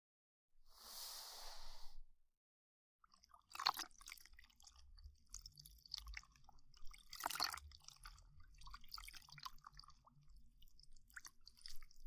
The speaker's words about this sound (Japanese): まずは、お耳を拭いていきますね。